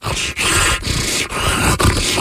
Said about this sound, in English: It's my dog.